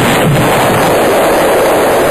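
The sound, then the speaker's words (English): Bombing explosions roar as a loud, dense, continuous rumble of blasts, with no clear gaps between them and no voices. “My fellow Americans, I'm pleased to tell you today that I've signed legislation that will outlaw Russia forever. We begin bombing in 5 minutes.”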